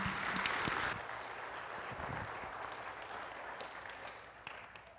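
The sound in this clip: Church audience applauding to welcome a guest pastor, steady dense clapping throughout, slightly louder at the start and gradually easing.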